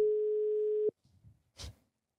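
A steady telephone tone sounds while a call is being placed, one continuous mid-pitched beep lasting just under a second, followed by faint clicks and rustling.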